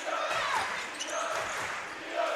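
A basketball is dribbled on the court during a game, a run of rhythmic bounces against a steady wash of background noise.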